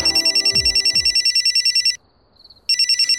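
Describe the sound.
A telephone rings with a rapid, pulsing electronic trill at a high, bright pitch. It sounds loud and alone, breaks off into near silence for a moment, then starts ringing again.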